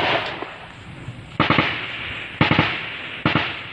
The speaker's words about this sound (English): On a windy cliff in Myanmar's northern mountains, a sniper hides behind a boulder. He peers down at military troops in a valley below and lines up his shot.